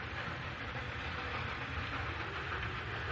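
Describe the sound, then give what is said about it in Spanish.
A train moves across a plain, a continuous, even rumble with a broad hiss-like roar that holds steady in loudness throughout. “El tren avanza por la llanura.”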